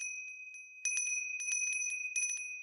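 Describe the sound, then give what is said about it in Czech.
A small bell rings in quick repeated strikes, bright and tinkling with sustained high metallic overtones, fairly quiet and alone. “zazvonil na zvonec”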